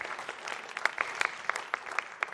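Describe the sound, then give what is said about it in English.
Thin, scattered applause from a church audience, with separate hand claps popping out irregularly over a soft background of a few more claps. “I thought there'd be more claps for that”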